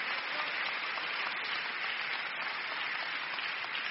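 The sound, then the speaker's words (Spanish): A church audience applauds during a sermon, a steady, even wash of many hands clapping that holds without a break. “¿No le dan un aplauso al Señor?”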